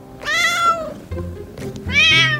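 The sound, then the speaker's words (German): A cat meowing twice, two drawn-out, mid-pitched meows separated by a short pause with quieter low sounds between them. “An den Universitäten der USA ist die Emotional Support Cat mittlerweile ein feststehender Begriff. Die Katze für die emotionale Unterstützung.”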